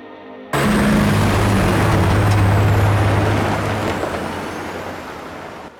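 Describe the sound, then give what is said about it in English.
Loaded trucks carrying tree trunks pass each other in a snow-covered timber yard. A loud, steady rumble with low engine drone and broad hiss starts abruptly, holds, then slowly fades. “Trucks laden with tree trunks pass each other in a snow-covered timber yard.”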